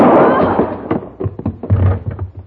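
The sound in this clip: A gunshot in a radio drama: one loud, sharp blast at the very start that decays over about half a second, followed by quieter, broken thumping sounds.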